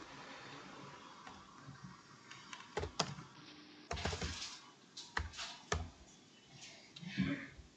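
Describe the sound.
Keystrokes on a computer keyboard as a value is typed in during a dice-based tabletop role-playing game session: scattered, irregular clicks and taps with a few louder bursts, and no talk.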